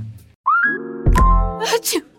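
A single sneeze tied to spring allergies: a drawn-out voiced intake rising into a sharp, breathy burst, loud and alone.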